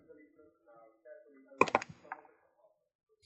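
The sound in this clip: Typing on a computer keyboard: a short cluster of sharp clicks, with a few more taps shortly after, following faint talk.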